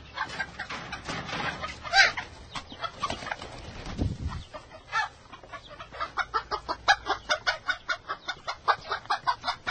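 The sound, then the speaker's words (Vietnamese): Newly hatched chicks peeping after breaking out of their eggs: many quick, fairly loud, high chirps, irregular at first and then settling into a steady, rapid rhythmic series. “Một hôm, hai quả trứng chồng cô tặng nở ra hai con gà con.”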